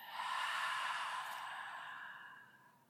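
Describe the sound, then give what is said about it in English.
A slow, deep exhale at the end of a breathing exercise: one long, soft, breathy rush of air that holds steady, then gradually fades away, heard alone. “Last one, inhale. And then breath out.”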